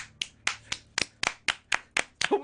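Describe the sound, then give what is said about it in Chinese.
Half-hearted hand clapping, like a listless school assembly response: a slow, steady series of single claps, evenly spaced and fairly crisp, each one separate with no cheering or talk. “你啲学生都知道有啲咩系冇灵魂嘅拍手啦。”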